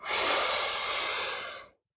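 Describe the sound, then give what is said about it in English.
A single deep inhalation during a guided breathing exercise, a steady, airy hiss lasting under two seconds before cutting off into silence. “Let's take a deep breath together, okay? Three, two, one, inhale.”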